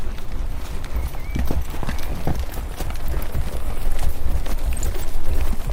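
A horse's hooves clip-clop at a walking pace as it is led around, with many steady, sharp strikes that grow slightly louder over a rough outdoor background.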